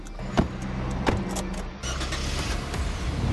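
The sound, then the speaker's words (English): Vans pull out of a hotel parking structure with a steady engine rumble. A few sharp knocks and clunks sound over the hum, and the noise swells slightly toward the end. “the team loads their gear into three vans, and we drive out of the hotel parking structure.”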